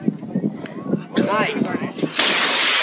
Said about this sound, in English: This guy sees a like a little toy rocket being shot up. Once again, 5, 4, 3, 2, 1.